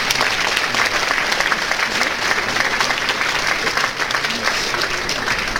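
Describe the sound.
Applause from an audience at a points-scored competition: dense, steady clapping that holds at an even loudness for the whole stretch with no clear pauses.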